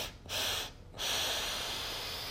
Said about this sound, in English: Inhale, inhale, inhale through the nose.